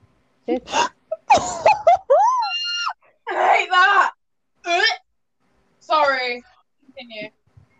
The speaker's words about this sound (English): Sorry. Continue. Okay, as I was saying, before I was rudely interrupted. That scream.